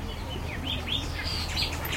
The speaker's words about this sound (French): Tendez l'oreille, Fabienne. Au milieu de ce beau verger, les oiseaux sont nombreux, heureux et le font savoir, car ils trouvent de quoi se nourrir en quantité eux aussi.